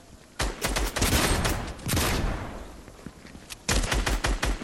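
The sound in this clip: Rapid automatic gunfire from Fortnite gameplay in two loud, dense bursts of crackling shots, separated by a quieter stretch of fading fire.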